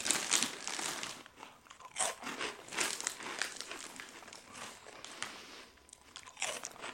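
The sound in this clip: Crunching of Andy Capp's hot fries, spicy snacks eaten from a crinkly bag, with many irregular crisp crunches and crackly crinkles, some sharper bites standing out, and no talking.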